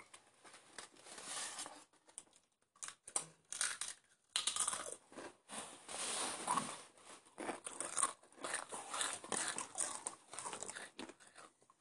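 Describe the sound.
Someone crunches and chews a potato chip, making many crisp, irregular crackling bursts with brief pauses between bites. The sound is quiet overall, with no talking.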